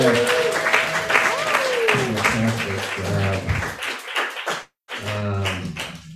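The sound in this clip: Audience applause follows an open mic reading, with clapping running under a voice that talks over it, then a brief break in sound before talk resumes.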